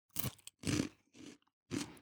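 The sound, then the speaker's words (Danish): Crunching bites into a salt stick, chewed with the mouth closed. Four dense, loud bursts of crunch come with short gaps between them, and there is no talk. “Jeg har nu en saltstang i min hånd her, og vil nu teste. Jeg bider, og jeg knaser.”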